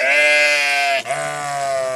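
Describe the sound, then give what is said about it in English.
Sheep bleat as they graze on the green roof of a modern workshop: a long, strained, nasal bleat, then a second, lower and softer one right after. “Today, sheep graze on the green roof of an ultra-modern workshop 4C and Robert Gerbel”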